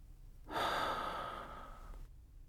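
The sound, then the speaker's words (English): Deep breathing in through the nose and out through the mouth during a relaxation exercise: one long, soft, airy rush of breath lasting about a second and a half, faint and alone. “Now take a few deep breaths. Inhale through your nose and exhale through your mouth, releasing the breath fully.”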